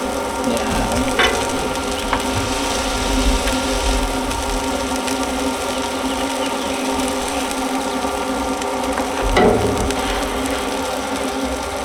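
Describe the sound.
Steady sizzling of food frying outdoors: a dense, even hiss that holds at one level throughout, with a couple of brief sharper pops near the start and near the end.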